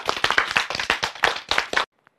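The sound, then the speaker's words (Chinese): Applause for engineers from a group of students: rapid, irregular hand claps of many people run steadily for almost two seconds, then stop abruptly, leaving one faint clap. “是不是要为我们的工程师鼓掌啊？”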